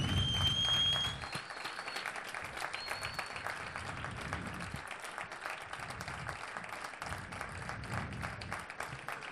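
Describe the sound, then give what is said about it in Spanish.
Applause from an audience at a 12th-anniversary commemorative event: steady, dense clapping that holds at an even loudness for the whole stretch, with no voices over it. “Demano un fort aplaudiment per ell, per tots els companys i companyes que ens hem quedat sense ell, per la família.”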